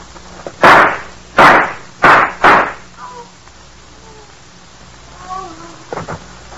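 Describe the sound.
Gunshots in a radio drama: four loud, sharp bangs with short decays come in quick succession, the last two close together. Faint voices follow afterward.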